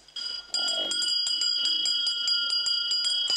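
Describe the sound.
Hand bell rung to wake a man sleeping in bed: a rapid, continuous high metallic jangle of quick repeated strikes, loud and steady after a brief softer start.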